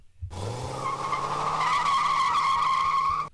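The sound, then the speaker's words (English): A car drives off with its tires skidding, giving one loud, sustained squeal that lasts about three seconds with a steady high screech and no talk. “Oh, looks like he drove off.”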